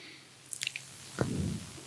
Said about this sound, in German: ich trinke mal einen Schluck Kaffee